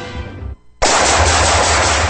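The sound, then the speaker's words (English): Gunfire from shooting: a loud, sustained burst of rapid automatic fire starts abruptly after a short lull and continues without a break to the end. “Nice shooting.”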